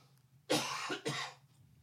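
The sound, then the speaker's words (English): A deliberate, exaggerated cough comes as two harsh bursts in quick succession, the second slightly shorter, against a faint quiet background. “dramatic cough”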